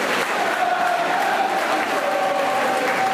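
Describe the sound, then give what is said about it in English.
Peterborough football fans chanting behind the goal at a match, heard as a dense, steady roar of massed voices with a sustained sung tone running through it, loud and unbroken throughout. “here come the Peterborough fans chanting behind the goal,”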